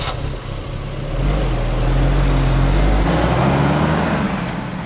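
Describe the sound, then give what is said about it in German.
A car driving through the Texas Hill Country: a steady, low engine drone with road rumble that swells slightly after the first second and then holds level, with no voices. “Ich fahre durchs Texas Hill Country”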